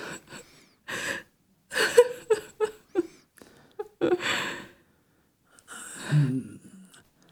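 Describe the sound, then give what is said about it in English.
Heavy, out-of-breath panting and gasping after a steep climb, heard alone as several separate bursts of ragged breaths with short pauses between them. “Will it be okay if I sit here for a few moments, get my breath back? Some days it's a steeper climb.”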